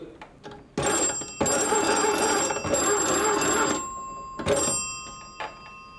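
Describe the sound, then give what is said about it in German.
A dispatch telephone bell at Schneeberg rings out a signalling code of short and long rings, loud, rattling bursts with brief gaps between them. “Und da haben wir die Morsecodes mit kurz, lang, lang, kurz.”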